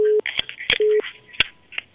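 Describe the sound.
Telephone line tones play as another number is called: two short steady low beeps come between and under overlapping voices and brief higher electronic blips.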